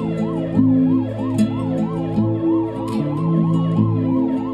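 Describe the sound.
An ambulance siren heard at night, its wail rising and falling rapidly and repeating evenly throughout, loud over steady low sustained tones.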